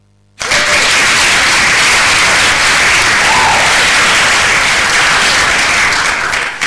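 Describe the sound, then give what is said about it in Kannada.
Warm applause for listeners who sent correct answers to a science quiz starts abruptly after a brief silence, then continues as dense, steady clapping at an even level until the end. “ಅದಕ್ಕಿಂತ ಮುಂಚೆ ಯಾರೆಲ್ಲ ಸರಿಯಾದ ಉತ್ತರವನ್ನು ಕಳಿಸಿದ್ರು ಅವರಿಗೆ ಪ್ರೀತಿಪೂರ್ವಕವಾದಂತಹ ಒಂದು ಚಪ್ಪಾಳೆ ನಮ್ಮ ಕಡೆಯಿಂದ ಕಳಿಸ್ತಾ ಇದ್ದೀವಿ.”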